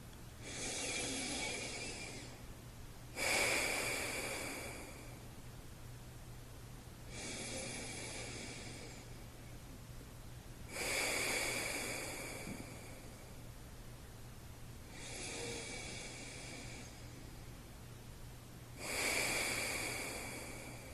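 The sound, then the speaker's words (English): Slow, deep breathing, several long airy breaths in and out that alternate in steady cycles, each swelling and fading over a couple of seconds, with a faint low steady hum beneath and no talking. “Let's take 3 deep breaths together.”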